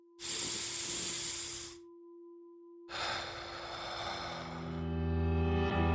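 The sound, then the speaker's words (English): A deep breath: long, loud, airy rushes of breathing separated by a short pause, heard alone without talk over a soft steady tone, with musical notes entering near the end. “Let's take a deep breath. Wherever you are, feel those ribs expand, that chest lift towards your chin.”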